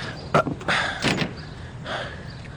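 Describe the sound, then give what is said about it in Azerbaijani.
A door is being shut inside a home, giving a few sharp clunks and knocks, then softer scraping and rustling that trail off. No one speaks. “Yaxşı da, qapını ört, gəl içəri.”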